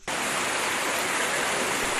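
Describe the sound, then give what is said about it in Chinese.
Steady gurgling, rushing flowing water from a reed-lined city stream at Qianmen Sanlihe in Beijing in midwinter, starting abruptly and holding a loud, even hiss throughout. “流水潺潺，芦苇飘荡，绿意盎然。”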